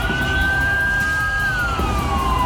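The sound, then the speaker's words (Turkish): An ambulance siren wails while the vehicle is stuck in traffic. The tone climbs slightly and holds, then slides downward, loud over a rumbling bed of traffic noise. “Bu ambulans zamanla yarışıyordu ama trafiğe takıldı.”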